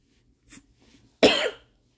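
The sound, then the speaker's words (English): A single loud, harsh cough from a person who has been drinking coffee, preceded by a faint short breathy catch, then silence; no talk. “That's why I keep coughing, and I'm drinking coffee.”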